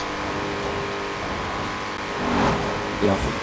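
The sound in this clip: Car engine in a street race in the video game Forza Horizon 4, driven in winter conditions: a steady, rough engine hum that swells into two short revving surges near the end.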